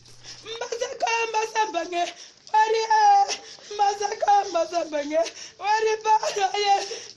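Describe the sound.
A 62-year-old woman cries and wails over her son, a police officer killed in fighting with separatists. Her voice comes in several long, quivering bursts with high broken pitch and brief gasping pauses between them.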